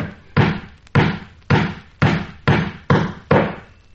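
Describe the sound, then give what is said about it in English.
Hammer blows drive nails in amateur carpentry: seven loud, sharp strikes, each with a short, dull ringing tail, landing at a steady pace that quickens slightly toward the end. “Excuse me, should I most inadvertently hit the thumb now and then? I'm only an amateur carpenter. But even as I nail, I can see to shoot very well.”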